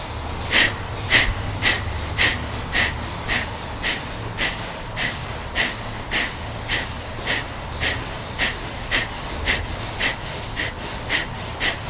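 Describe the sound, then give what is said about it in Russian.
Rhythmic forceful breathing during a kriya yoga warm-up exercise, with many short, sharp breaths at a fast, even pace and steady loudness throughout. “Дышим, дышим.”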